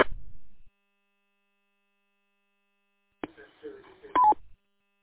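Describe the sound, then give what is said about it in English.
A short electronic roger beep closes an amateur radio mobile transmission, a brief stepped tone right after a rough burst of noisy signal, with another short static burst at the start and silence between. “I think you have your Roger beep turned on.”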